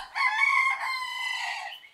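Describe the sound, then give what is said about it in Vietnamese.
A rooster crows once, a single drawn-out, harmonically rich call lasting under two seconds, loud and clear, with a slight sag in pitch toward its fading end and no other sounds around it. “cho đến khi tiếng gà bên hông gáy vang”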